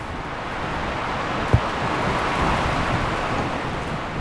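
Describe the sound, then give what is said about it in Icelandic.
Wind blowing outdoors by the seashore, a dense, steady rushing roar that holds level throughout, broken only by one brief thump; no voices. “tekið þarna í vindinum við ægisíðuna”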